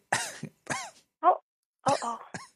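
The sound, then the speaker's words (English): A caller coughs on request: several sharp coughs separated by short gaps, with some throat clearing among the bursts. “Can you cough for me? Don't cough up a lung over there”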